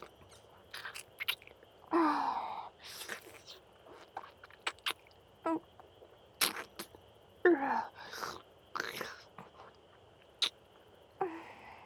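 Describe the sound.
Close-up chewing and eating of a food made slippery, heard as wet mouth clicks and smacking, with several louder bursts spread among softer noises and quiet gaps between them.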